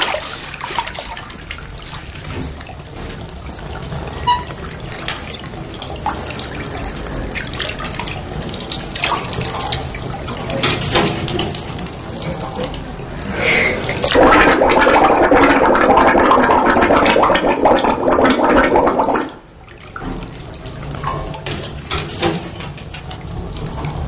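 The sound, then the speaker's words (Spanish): Water splashes and runs in a bathtub as a child's arm is scrubbed with a sponge, a steady watery wash that swells into a louder rushing stretch, then cuts off abruptly and resumes more softly. “Lore frota con una esponja el brazo de Jürgen. Sonríe mientras lava a su hermano que mira cabizbajo hacia el agua.”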